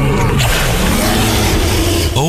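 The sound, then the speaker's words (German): A dinosaur roar tied to the life-size dinosaur figures at Zoo Osnabrück: a loud, deep, rasping growl that runs continuously through the whole stretch, with a brief shift near the start and another just before the end. “Okay, das war jetzt aber kein Löwe. Papa, das sind doch die Dinos im Zoo Osnabrück.”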